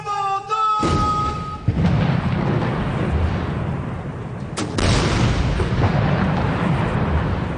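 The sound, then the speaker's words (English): Deep booms of a ceremonial 17-gun salute fired at Tiananmen Square, a few heavy thuds rising out of a dense, steady rumble after a brief tonal opening. “A symbolic 17-gun salute was fired at the Tiananmen Square, and the national flag was raised to begin the ceremony.”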